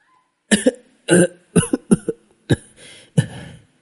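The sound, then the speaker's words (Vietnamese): Violent dry coughing: a loud series of harsh, hacking coughs in short clustered bursts, some coming in quick pairs, with brief pauses between them. “Lý Hiếu Chính dùng sức ho khan dữ dội”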